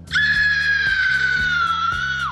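A stolen cell phone's remote-triggered anti-theft scream alarm sounds as a loud, sustained high shriek with strong harmonics. It holds one steady pitch for about two seconds, then drops sharply at the end.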